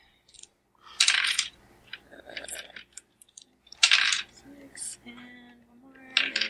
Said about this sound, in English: So I need to roll 7 dice.